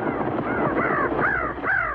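Crow cawing: three harsh, hoarse caws with an arched, rising-then-falling tone, spaced about half a second apart over a steady, noisy background.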